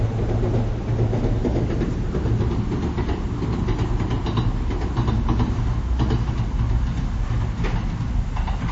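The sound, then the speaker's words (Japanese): A distant two-car electric train crosses a green steel railway bridge, a continuous low rumble with a faint metallic clatter running evenly throughout, with no voices. “越後線の2両編成の電車が緑色の鉄橋の上を渡っていきました。”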